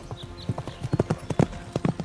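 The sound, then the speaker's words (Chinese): Hooves of a galloping horse charging out of a crowd clip-clop in a fast, slightly uneven rhythm. Many sharp, loud hoof strikes sound over a steady low hiss. “只见吕布胯下骑着赤兔马，手拿方天画戟，从人群中奔腾而来，”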